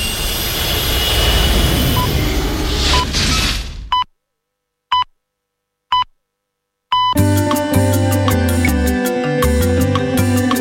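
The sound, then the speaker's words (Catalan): A spaceship take-off sound effect: a loud, broad engine roar that cuts off abruptly, followed by three short beeps in near silence, then a dense layer of steady electronic tones. “Pugeu a la nau i cordeu-vos bé els cinturons. Doncs tornem al planeta Terra.”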